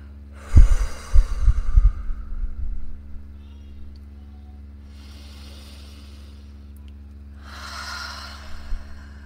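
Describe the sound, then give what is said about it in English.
Slow, deep breathing in and letting the air out comes as a few soft, airy breaths spread apart, the first the strongest, over a steady low hum, with no talk. “Go deep, breathe into your lungs as deep as you can, taking in all of that cleansing air. And then on the exhale, just let it go.”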